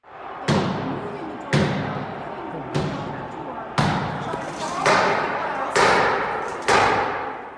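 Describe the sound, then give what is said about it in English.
Heavy booming thuds as a violent mob batters the doors of the Capitol building, a series of loud impacts roughly once a second, each with a rumbling tail, over crowd noise and shouting. “This is the sound of the violent mob literally trying to bust down the doors of the Capitol building, tweeted by Slate's Jim Newell yesterday afternoon.”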